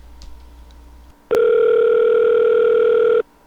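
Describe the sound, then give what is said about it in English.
A fake telephone ring made for a prank call to a travel service: one loud, steady electronic tone that holds for about two seconds after a quieter low hum, with no talk over it. “Fake ringing.”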